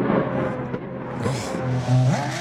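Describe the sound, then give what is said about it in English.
A Formula One car speeds down a racetrack's back straight, its engine a loud, continuous, high-pitched whine with a strong harmonic tone. The pitch climbs sharply near the end as the engine revs up. “You know what that sound is? It's the beautiful sound of a Formula One car just flying down the back straight.”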